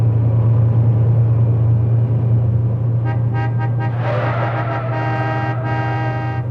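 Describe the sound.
Cars overtake a convoy of vehicles on a road, with a steady low engine rumble throughout. A few short horn toots are followed by longer, sustained honks.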